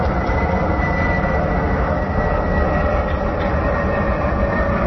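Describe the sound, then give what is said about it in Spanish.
Airplane passing overhead, recorded at a neighbour's house in Belvís del Jarama under a busy flight path: a loud, steady, broad roar fills the whole clip with no clear build or fade. No voices. “Es un avión pasando por encima de ellos.”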